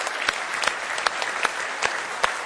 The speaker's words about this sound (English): Give him a good hand clap of praise if you love him.